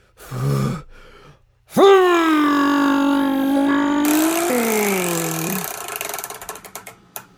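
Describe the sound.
Ratcheting clicks of a spinning prize wheel come after a loud, sustained droning tone. The clicks are rapid at first, then slow and thin out toward a stop.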